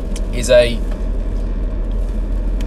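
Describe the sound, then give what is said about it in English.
Steady low engine and road rumble inside a car driving home, a constant deep drone with one brief voice sound early on. “I do recognise that speaking to you in the car on the way home”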